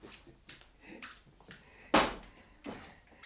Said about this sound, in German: Möchte ich lieber doch das Fenster mal schließen.